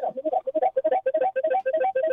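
Electronic telephone ringtone for an incoming call: a rapid, warbling run of many short, evenly spaced pulses that repeats steadily throughout, with no talk over it.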